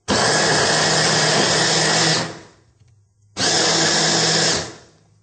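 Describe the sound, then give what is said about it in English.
Motor whir of a food processor blade chopping carrots: two loud, steady bursts of about two seconds each with a short pause between. The whine holds level and then cuts off. “we're going to do the same thing with the carrots. Now don't put too many in, because what will happen is the blade will get stuck.”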